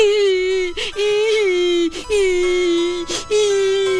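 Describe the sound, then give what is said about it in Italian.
A voice loudly imitates Pinocchio crying and wailing, in four long, sustained, quavering wails separated by brief breaths. “E il povero Pinocchio cominciò a piangere e a berciare così forte che lo sentivano da 5 chilometri lontano.”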